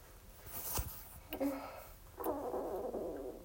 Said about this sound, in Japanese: この中ゴロゴロいってる。消化してんのかな。